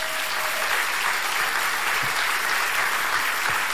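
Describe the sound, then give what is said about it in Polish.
Steady applause from an audience honouring a Polish violinist who won the Paganini competition in Genoa: dense, continuous clapping that holds an even level throughout, with no voices over it. “Wielkie brawa jeszcze raz.”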